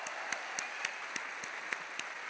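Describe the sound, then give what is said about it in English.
Audience applause from a crowd for people being honored: a dense bed of clapping with sharper claps standing out at a steady, even pulse, and no voices over it. “We want to give you a shout out and applaud you for your efforts.”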